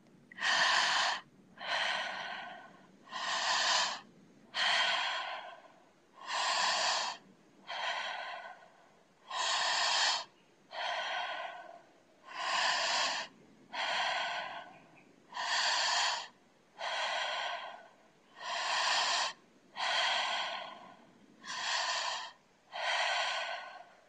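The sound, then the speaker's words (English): Forceful breathwork breaths drawn through the mouth during a guided breathing exercise, a long, even series of loud, rushing breath bursts in steady rhythm with short pauses between them, no talk over them. “And we'll begin 30 breaths together.”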